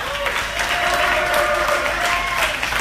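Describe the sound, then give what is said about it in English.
A comedy club crowd claps and cheers on the host's cue, with dense, steady applause and some voices mixed in, holding at an even level. “I need you to put your hands together, make some noise. Guys, put your hands together.”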